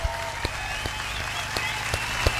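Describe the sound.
Scattered claps after a call to applaud Mexico City for hosting a World Cup. A few sharp claps land in a loose, fairly regular rhythm over a faint, steady tonal background at low volume.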